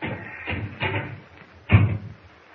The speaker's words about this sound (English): Well, I'm all set. Open the hatch. Now I climb in there.